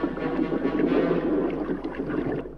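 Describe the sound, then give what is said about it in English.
A small submarine's motor running and its propeller spinning underwater as the craft moves across the ocean floor, heard as a steady, broad churning rumble that stays even and then eases slightly at the end. “He cranks the motor and the propeller starts to spin and the sub moves away across the ocean floor.”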